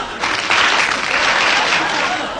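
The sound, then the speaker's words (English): Stock film of women applauding: many hands clap together in a dense, even roar that swells quickly at the start and holds steady to the end. “If there's any more stock film of women applauding, I shall clear the court!”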